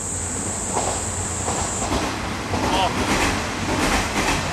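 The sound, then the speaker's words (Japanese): A two-car electric train heading back from Himi toward Takaoka: a broad, steady rumble of wheels and motors, with a thin high whine over the first two seconds. “あのさっき氷見の方に行った電車が今度また高岡に帰っていきました。”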